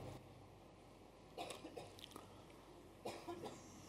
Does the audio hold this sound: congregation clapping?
no